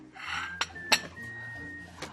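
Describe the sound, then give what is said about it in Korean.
Metallic clinks of a cooking pot being set out in a kitchen while preparing oyster rice soup: three sharp knocks, the middle one loudest, over a low hum and a faint lingering ringing tone. “냄비 준비를 했어요.”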